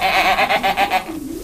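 Goats bleat on a farm: a quick run of wavering, nasal bleats pulses in a steady rhythm, then gives way to a lower, softer drawn-out tone at the end.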